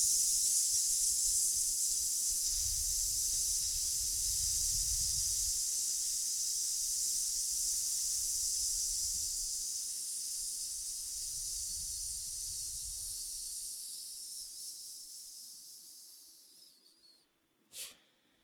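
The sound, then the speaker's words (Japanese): A long, slow breath during a breathing exercise, drawn out as a steady airy hiss lasting many seconds that gradually thins and fades. A short soft click follows at the end. “できるだけ長く伸ばしていきましょう。じゃあいきますよ。吸って吐きます。”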